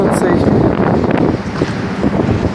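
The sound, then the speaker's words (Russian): Strong wind blowing outdoors, a loud continuous roar of gusts buffeting the microphone, swelling and easing slightly without a break. “Сегодня очень ветрено.”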